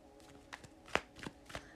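Tarot cards being shuffled by hand, a few soft papery riffling bursts scattered through a quiet stretch, with one sharper, brighter snap near the middle.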